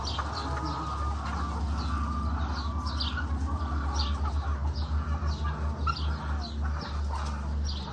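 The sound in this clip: Chickens cluck in a home video, with repeated short calls and higher chirps over a steady low hum, the clucks coming in an uneven rhythm throughout.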